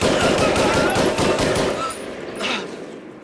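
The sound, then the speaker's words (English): A German sergeant's automatic weapon fires a dense, rapid clatter of continuous bursts. The gunfire stays loud for about two seconds, then thins and fades. “he did hear the renewed clatter of the automatic as the German sergeant cut them down.”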